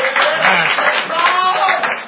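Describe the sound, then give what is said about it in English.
Hand clap of praise from a church audience during an evening sermon: brisk, steady clapping with voices mixed in, sounding a little muffled and thin, holding level from start to finish. “I think we ought to stop and pause for a few moments tonight and at least give the Lord a hand clap of praise.”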